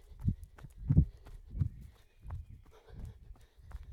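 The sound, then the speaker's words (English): Footsteps of someone running, six steady, evenly spaced low thuds with soft scuffs between them, no talking. “Time to go. That might have been a short one, but hey, we're off now. Let's keep running.”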